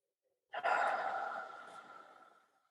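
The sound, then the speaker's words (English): A single deep breath taken during a guided meditation opening, drawn in and released as one long, slow, breathy sigh that fades gradually, with no talk. “So we'll just start with three deep breaths”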